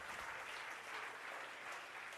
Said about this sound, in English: Can we give her a hand clap tonight?